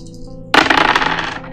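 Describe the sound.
Dice rolled in a tabletop game: one sudden hard clatter, then a quick rattling tumble that fades over about a second.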